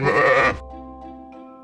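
A sheep gives one loud, coarse bleat, which then gives way to a soft, sustained tonal chord that carries on quietly to the end.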